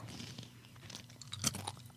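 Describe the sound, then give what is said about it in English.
Someone chews crumbs of a crunchy peanut snack, with soft, quiet crunching and mouth noises and a sharper crunch near the end. No voices are heard. “You're going to hand me crumbs. Huh, I'll still eat them. They were kind of good. And these go in my pie hole.”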